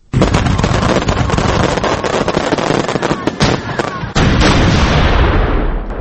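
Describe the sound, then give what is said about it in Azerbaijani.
Fireworks on a July evening in Baku during an official anniversary celebration: a loud, dense barrage of cracks and booms with hardly a pause, dipping briefly past the middle before surging again. “İyul axşamı Bakıda atəşfəşanlıqdır.”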